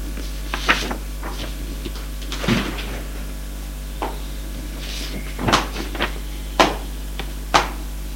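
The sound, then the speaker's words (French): A door being opened off a long tiled corridor into a dormitory, heard as scattered clicks, rattles and creaks, with a few louder knocks near the end over a steady low hum. “Il ouvre une porte.”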